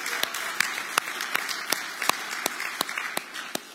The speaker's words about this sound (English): Church, can we give a hand for all of our students?